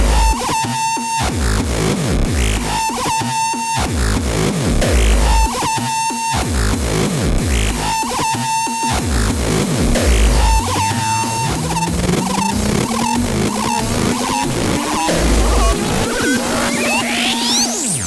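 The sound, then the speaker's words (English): A drum machine beat from a hard electronic set at a festival pounds out heavily distorted kicks in a fast, steady rhythm under loud, noisy, buzzing layers, with a tone sweeping upward through the second half. “You need it to sound like this. Does your drum machine sound like this?”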